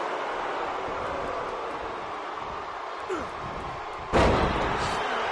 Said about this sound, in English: Slip slam by the Hitman.